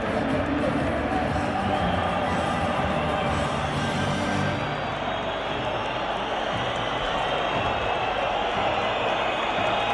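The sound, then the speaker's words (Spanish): Stadium crowd booing after a match has ended, with the anthem playing through the stands: a dense, continuous roar of many voices that stays loud and steady throughout. “Y en ese momento, el resto del público abuchea. Se escucha el himno porque el partido acaba de terminar.”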